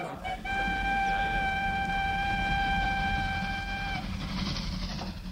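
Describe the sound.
A train horn blows a steady, sustained tone for about three and a half seconds over the continuous low rumble of a moving train. The rumble carries on after the horn stops.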